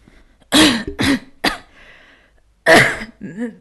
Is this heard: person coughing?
yes